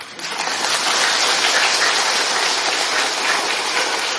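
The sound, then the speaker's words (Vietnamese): Audience clapping at a Buddhist dharma talk, a dense wash of many hands that swells up quickly and then holds at a steady, loud level. “Cho nên mình vỗ tay mà mình cười lên cho sư coi coi.”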